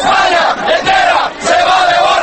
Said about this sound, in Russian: Выкрикивали испанцы свое традиционное приветствие спортсменам-победителям.